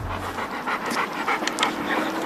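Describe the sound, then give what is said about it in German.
A strong, heavy shelter dog of about 40 kilos pants on a leash walk, a quick, steady rhythm of breathy huffs that continues without a break. “Pino und Mowgli, zwei Hunde mit Kraft, ziehen beim Spaziergang gern mal nach vorn”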